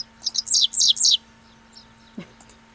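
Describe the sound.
A grassland bird chirps in a quick run of high, downward-sweeping notes, about half a dozen in a bright cluster, followed after a pause by a few fainter scattered calls.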